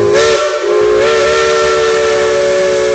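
A train whistle sound effect in a radio time announcement blows as a loud, sustained steam-whistle chord. The tone holds steady, with a brief dip near the start, and no voices over it.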